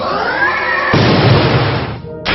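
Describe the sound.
A loud synthesized attack effect from a creature-battle video game: a bright whooshing tone swells into a harsh, noisy booming burst that holds, then cuts out abruptly before a short final crackle.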